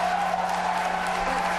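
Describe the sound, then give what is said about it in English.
A debate timer tone signals that a candidate's answer time is up: a steady, mid-pitched electronic tone holds unbroken for the whole moment over a faint background murmur. “By the way, listeners, you did not just get a text message. That sound you heard was the sound they were using to signal to candidates that their answer time was up.”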